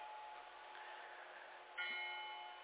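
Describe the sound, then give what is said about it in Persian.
A church bell rings with sustained, humming tones. Partway through comes a fresh, louder strike that then slowly decays. The sound is faint and thin. “و اما اگر این صدای زنگ را، من توصیه میکنم که عوض کنن، این صدا صدای ناقوس کلیساست”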